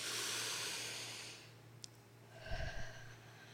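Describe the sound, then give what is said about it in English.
A long, airy in-breath during a closing blessing at a seminary chapel service, drawn in steadily for over a second. After a pause comes a quieter, breathier release of air. “And we take a deep breath.”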